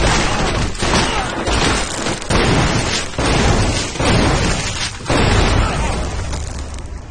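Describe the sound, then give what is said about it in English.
Electric shotgun blasts take down guards in a loud, dense barrage of booming bursts. The shots run together into a continuous roar of noise, with brief dips between the heavier hits. “He shoots electric shotgun blasts and takes down the guards.”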